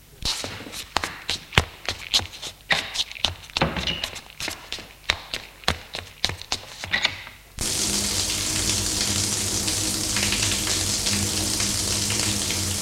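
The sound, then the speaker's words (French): Tap water runs in a bathroom as someone washes, a steady, even rush of hiss that starts abruptly after a quick run of thumping steps and shuffling. “Il court à la salle de bain se laver.”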